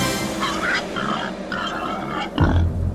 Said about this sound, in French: Je suis libre lance-t-elle à tous les sangliers qu'elle croise sur la route.